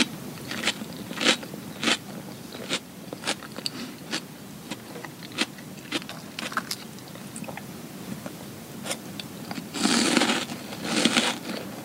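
Crunchy food being bitten and chewed, with many sharp, crackly crunches at an irregular pace. Quiet overall, with a louder, denser burst of crunching near the end and no talk.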